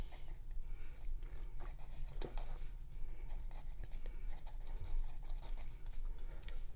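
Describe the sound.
Pen scratching across paper while writing, many short, faint strokes in an uneven rhythm, quiet and without talk.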